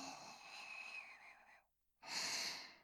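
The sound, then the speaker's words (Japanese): Deep breathing in and out: a long, steady, airy breath lasting over a second and a half, a brief silence, then a second strong, rushing breath. “何度も何度もこの匂いを肺いっぱいに吸い込もうね。 吸って吐いて、”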